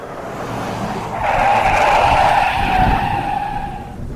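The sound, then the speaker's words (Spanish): Tires skid and screech as a car brakes sharply on a rain-soaked street. A loud, sustained squeal swells after the first second and holds for about three seconds over a low engine rumble. “La brusquedad del frenazo casi le hizo perder el control del vehículo.”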